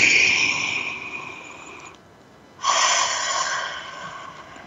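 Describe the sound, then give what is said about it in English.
A deep breath taken alone: a long, loud, airy inhale, a short silent pause, then a long exhale that slowly fades. “Let's take a breath.”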